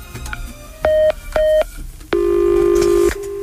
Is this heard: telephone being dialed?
yes